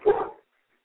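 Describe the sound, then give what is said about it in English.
A small dog lets out one short, sharp bark over a phone call, then silence follows. “Got a little dog in there and everything.”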